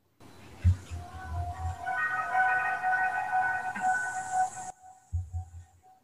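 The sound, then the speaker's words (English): Echoing trumpet theme from a film score: sustained, brassy tones that swell and hang in the middle, fairly faint over a low rumble, with brief voices at the start and end. “haunting sort of trumpet sound every time reflecting on these things. Jerry Goldsmith, and it's this echoing sound that makes this sort of like, oh, he's going into that mode again.”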